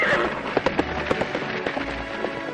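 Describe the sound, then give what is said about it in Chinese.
Horses draw a pumpkin carriage, and their hooves clip-clop in a quick, slightly uneven rhythm of light knocks over a busy background. “她坐上南瓜马车，朝着皇宫而去。”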